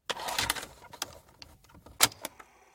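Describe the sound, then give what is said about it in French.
A play key pressed on a tape recorder gives a few sharp mechanical clicks and clunks, with small rattles between them. “J'appuie sur la touche lecture du magnétophone et j'écoute une dernière fois la séance d'hier.”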